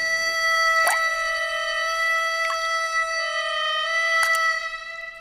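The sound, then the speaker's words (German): A leaky bathroom washbasin tap that no longer seals drips three slow, evenly spaced drops, each a short sharp plink over a steady high tonal hum. “Kann mal jemand den Wasserhahn bitte zu? Aha, ist zu. Einfach nicht dicht.”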